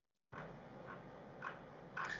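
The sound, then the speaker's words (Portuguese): A puppy barks very softly, giving a few faint, short yips that rise slightly above a steady background hiss. “O tá latindo? Ele late, mas ele late muito baixinho. É, é um filhote.”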